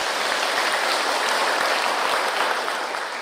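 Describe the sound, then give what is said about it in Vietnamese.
Audience applause fills a Buddhist dharma talk given by a nun at Long Quang ancestral temple: a dense, steady wash of many hands clapping at even loudness for the whole stretch, with no voices over it. “Xin cho một tràng pháo tay thật lớn.”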